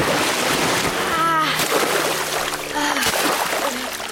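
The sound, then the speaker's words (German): Splashing as three people run into pond water: a loud, continuous churn of watery noise lasting the whole clip, with a few brief tonal sweeps on top. “Alle drei rennen ins Wasser.”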